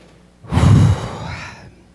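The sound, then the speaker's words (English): A single quick, deep breath: a loud, airy rush of air that swells, then fades away over about a second. “So I'll just take a quick deep breath, myself included.”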